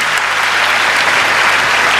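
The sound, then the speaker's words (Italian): Audience applause, a thick, continuous rush of many hands clapping that holds an even, loud level throughout without breaks. “che facciamogli un applauso, ci sta seguendo dagli Stati Uniti.”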